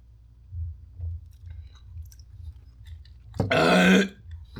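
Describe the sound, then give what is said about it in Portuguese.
Someone takes a sip of grape juice: faint low gulping thumps, then a loud throaty burst of about half a second after drinking, then quiet again. “Mais provável que eu não vou beber isso tudo aqui, ó. Né? Então, um gole a essa bagaça.”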